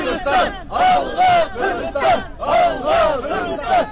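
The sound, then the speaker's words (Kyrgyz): Protesters shout together at a rally in front of the Tajik embassy and the White House in Washington, denouncing a deadly armed attack on the Kyrgyz-Tajik border. A loud crowd of voices rises and falls in repeated, rhythmic chant-like bursts. “Вашингтондогу Тажикстан элчилигинин жана Ак үйдүн алдында нааразылык акциясын өткөрүштү.”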